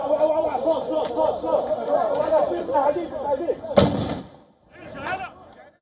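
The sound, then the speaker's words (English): Two sharp bangs of tear gas canisters fired by troops toward Palestinians and journalists during a West Bank shootout, the first loud and abrupt, the second softer, breaking through a steady murmur of crowd chatter. “Israel forces were seen firing tear gas at Palestinians and journalists in the area of shootout.”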